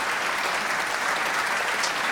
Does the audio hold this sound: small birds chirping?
no